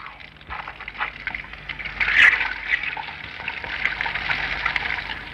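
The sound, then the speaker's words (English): Running water rinsing hair at a hairdresser's, a steady, moderately loud hiss and splash that swells slightly in the middle and carries on without talk. “Keep the towel over your eyes, Mrs. Anderson. I'll just rinse your hair now.”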